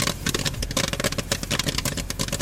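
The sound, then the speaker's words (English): Corn popping in a jury-rigged popcorn machine at a traveling youth circus: dense, rapid crackling pops, loud and continuous, over a low steady mechanical hum. “In Revere this weekend, audiences will hear this sound at Circus Smircus, a high-level traveling youth circus. But the corn would not be popping with such vigor if 25-year-old Andrew Marecki”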